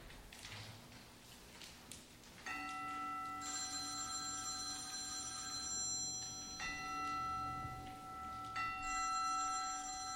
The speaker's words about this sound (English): That's my phone. I'm gonna grab that. I didn't mute it, so sorry.